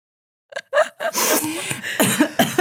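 Coughing fit after choking on saliva while laughing hard: a couple of short, sharp bursts, then rough, rasping coughs that run together with harsh breaths.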